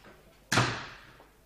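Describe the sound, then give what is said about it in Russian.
A door being closed: one sharp, heavy thud that decays over about a second, with no talk around it. “Проходите, можете затворить дверь.”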